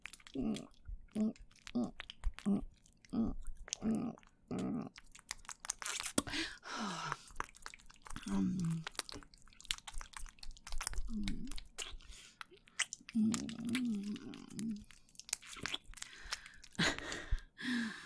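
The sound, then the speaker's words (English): Wet licking and mouth sounds, with a steady rhythmic run of soft smacks at first, then irregular slurping mixed with breathy vocal sighs. “I'm gonna lick it. Oh, it tastes so good.”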